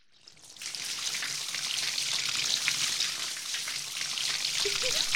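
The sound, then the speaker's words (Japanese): Hot, source-fed hot spring water poured over someone's head, a steady rushing splash and patter that runs evenly for about five seconds with no voices. “湯の温泉は源泉かけ流しなのでちょっと暑いかもしれません。気を抜いているとびっくりしちゃいますよ。では、頭からかけますのでご注意ください。”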